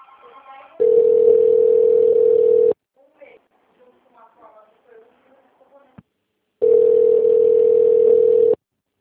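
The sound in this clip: Telephone dial tone on a call to a Brazilian company's extension line: two long, steady, loud low tones, each about two seconds, with a gap of faint scattered sounds between them.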